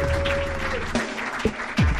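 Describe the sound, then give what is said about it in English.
A live comedy club audience at the Comedy Store applauds the host, a steady wash of clapping lasting about two seconds. “Give it up for Tony.”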